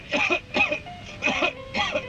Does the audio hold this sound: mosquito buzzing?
no